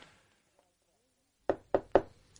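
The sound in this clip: Three quick, evenly spaced knocks on a bedroom door, sharp and fairly soft, heard alone after a near-silent stretch.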